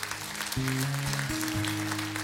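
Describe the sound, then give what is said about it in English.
An audience applauding in church after a prayer, dense continuous clapping over sustained instrumental chords that shift a few times. “Come on, give him a big hand.”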